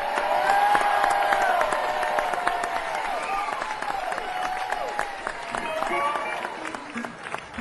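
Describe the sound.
Audience applause for a blues band leader: steady, dense clapping with scattered shouts and cheering voices mixed in, staying fairly even throughout.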